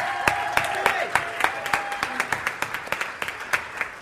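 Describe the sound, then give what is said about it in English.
Audience applause at a send-off for a long-serving server, with sharp, distinct claps spaced in a steady rhythm rather than a dense roar. A few voices sound faintly underneath. “Step on up. Jamie Bergmeyer, let's hear it for James.”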